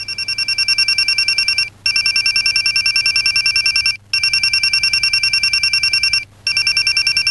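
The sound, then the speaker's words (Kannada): A phone rings with an incoming call: loud, rapid electronic pulses of high tones run in long bursts broken by three brief pauses, with no talk. “Suma ಇರು ಇರು, Raghu phone ಮಾಡ್ತಾ ಇದ್ದಾನೆ. Receive ಮಾಡು, receive ಮಾಡು.”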